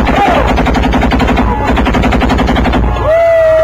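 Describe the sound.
Loud rapid gunfire in a video-game battle in which a sniper is hitting a vehicle: an evenly spaced rattle of shots that runs through nearly the whole clip.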